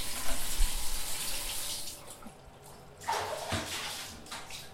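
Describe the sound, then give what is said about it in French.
Tap water runs and overflows in a faint, steady rush, with a louder surge of flow near the end. “Alors regarde, là, l'eau ça déborde. Je vais couper, d'accord?”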